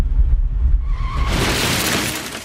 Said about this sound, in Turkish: Seyir halindeki otomobil yola çıkan motosikletle çarpıştı.